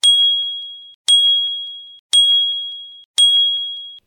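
Four identical bright chimes from a mobile phone WhatsApp message notification, evenly spaced about a second apart, each a sharp high ding that rings on briefly and fades, with no talk.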